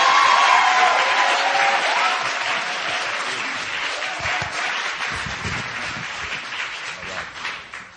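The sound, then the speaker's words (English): A church audience applauds as a pastor is welcomed up, the clapping starting full and thick, then gradually thinning and fading toward the end. “At this time, I want to welcome up, and let's put our hands together.”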